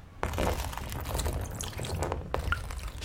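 Oil mixed with pigments, cadmium yellow and a green pigment blended with a little chalk white, is poured out in a continuous wet, splashing stream, with no talk.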